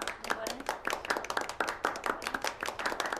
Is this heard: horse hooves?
no